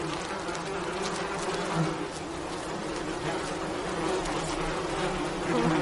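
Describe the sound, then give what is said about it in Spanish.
Wasps buzz around a beekeeper's suit near an open neck zipper. A steady, droning hum with faint rustling runs throughout. “Varias avispas se acercan a una abertura de la cremallera que ha quedado abierta a la altura del cuello del traje de apicultor.”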